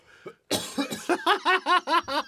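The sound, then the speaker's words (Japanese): Allergy-driven coughing: one small cough, then a rapid fit of many harsh, voiced coughs in quick succession, loud and fairly even in rhythm, with no talk. “いやどんだけ出んねん咳、 咳がね最近 アレルギーやん”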